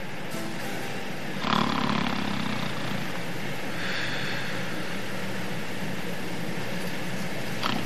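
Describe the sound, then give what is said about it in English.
A rapid transit train ride on a snowy day, heard as a steady, broad rumbling roar with two brief swells in loudness early on, continuous and without any voices. “it had all the makings of your usual boring ride on the rapid transit.”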